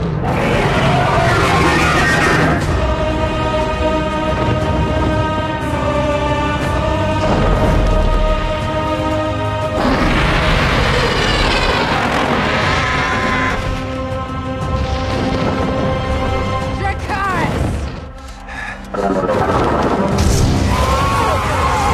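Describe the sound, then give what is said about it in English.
Dragon breathing fire on an army, a fantasy TV series effect: a loud, sustained roaring rush with booming, explosive bursts over a dense tonal layer, dropping briefly near the end before the roar surges back. “That was the sound of Daenerys' biggest dragon, Drogon, torching the Lannister army in Game of Thrones.”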